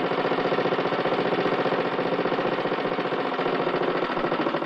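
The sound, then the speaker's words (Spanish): A motorcycle engine runs steadily as the bike rides along a road past a petrol station, carrying two men with heavy luggage. It gives a rapid, even, pulsing putter at constant speed, with no talk over it. “Desde la carretera por la que avanza la moto se observa la gasolinera. Miguel conduce sonriente.”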